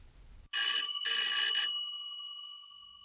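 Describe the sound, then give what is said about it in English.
An electric bell on a replica early wireless telegraphy receiver rings in two loud, bright metallic bursts, then leaves a high tone that slowly fades. “This is a replica. It's a replica of the receiver that Marconi used for the first public demonstration at Turnbull Hall in London. Marconi walked around with this black box with the bell on top,”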